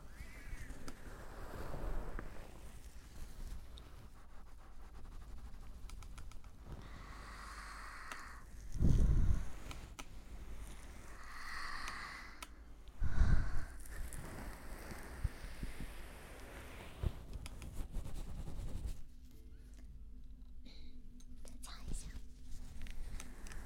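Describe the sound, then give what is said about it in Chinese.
Gentle rubbing behind the ear during ASMR ear cleaning, a soft continuous brushing and friction texture that runs throughout under a quiet whispering voice, with a couple of brief louder scuffs. “轻轻地摩擦一下你的耳朵后面这个地方，很多人洗脸也洗不到，洗澡也洗不到，帮你清理一下。”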